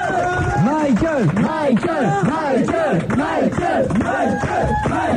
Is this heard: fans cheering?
yes

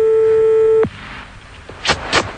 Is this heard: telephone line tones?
yes

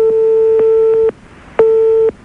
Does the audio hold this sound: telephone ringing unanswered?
yes

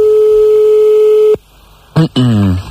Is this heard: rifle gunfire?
no

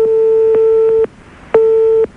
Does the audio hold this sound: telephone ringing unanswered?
yes

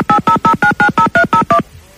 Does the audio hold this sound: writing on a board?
no

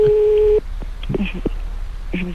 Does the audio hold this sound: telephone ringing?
yes

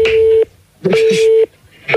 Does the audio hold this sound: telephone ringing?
yes

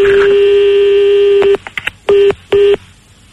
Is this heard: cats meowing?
no

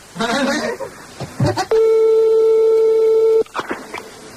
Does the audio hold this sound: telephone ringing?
yes

